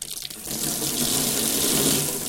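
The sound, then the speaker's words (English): A cold water tap runs hard and splashes into a sink. The rushing, hissing spray is steady and loud from start to finish, with no voices over it. “It's very splashy, that cold water tap. Very splashy.”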